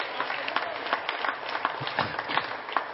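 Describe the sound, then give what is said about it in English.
An audience applauds the speaker's mother at a gathering, with dense, steady clapping that holds at a moderate level for the whole stretch. “Give her a hand.”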